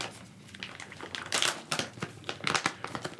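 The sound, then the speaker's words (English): Crinkly plastic packaging is torn open on a bag of TKO hot mesquite beef jerky. Many quick, bright rustles and crackles follow one another irregularly, fairly quiet and with no talk. “This one is a hot mesquite. Okay. Yep. Tearing it open.”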